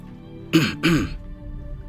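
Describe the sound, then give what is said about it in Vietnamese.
A man gives a dry cough: two short, rough bursts of throat clearing close together, over a faint low background. “Lâm Động cuối cùng ho khan một tiếng”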